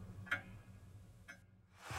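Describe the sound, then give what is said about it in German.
Wall clock ticking faintly: two sharp ticks about a second apart over a low, quiet hum. “Die Wanduhr tickt.”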